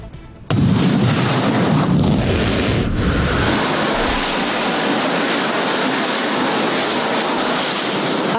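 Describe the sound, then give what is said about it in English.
Deep, loud roar of a SpaceX Starship rocket launch attempt, bursting in abruptly after a short quieter lead-in and then holding as a steady, rumbling, hissing blast to the end. “That, of course, was yesterday when SpaceX was trying to launch its Starship rocket. It says it's going to try and do it again in a few days after aborting yesterday's mission”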